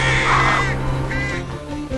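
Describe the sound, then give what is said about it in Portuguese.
Birds squabble around a frozen carcass at dawn, their harsh, cawing calls overlapping in a dense, continuous clamor that stays loud throughout. “Quando amanhece, as aves cercam a carcaça e lutam por um lugar à mesa.”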